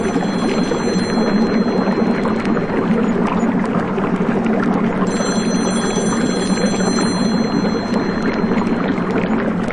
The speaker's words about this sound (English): Nobody ever got that phone.